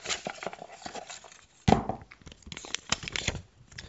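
A topic card drawn from a shuffled pile of paper slips: light papery rustling, then a louder crisp rustle followed by scattered shuffling and crinkling, heard without talk.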